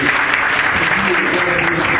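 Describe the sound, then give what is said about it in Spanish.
Audience applause at a motivational talk for a named person. The clapping is dense, even and continuous, at a constant loud level with no breaks. “Un aplauso para Santiago.”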